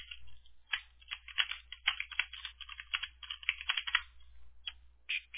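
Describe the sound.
Typing on a computer keyboard while copying and pasting, with many light, rapid, irregular clicks in quick bursts and short pauses, alone over a faint low hum.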